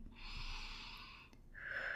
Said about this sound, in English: And I want you to just keep on breathing really deeply